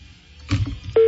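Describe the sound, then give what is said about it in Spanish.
A repaired telephone rings and goes unanswered: a single steady electronic tone starts near the end, following a short stretch of low muffled noise. “Está sonando el teléfono este viejo desgraciado, pero no contesta.”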